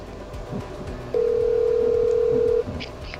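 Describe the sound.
Telephone ring-back tone while calling someone back after a rejected call: one steady electronic beep held for about a second and a half over a low background hiss.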